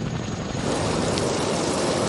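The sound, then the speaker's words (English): Steady roar of a National Guard rescue aircraft returning during a wildfire, a loud, unbroken rumble with a wind-like hiss that stays level throughout, with no voices. “The National Guard still making those air rescues. One, in fact, is returning right now.”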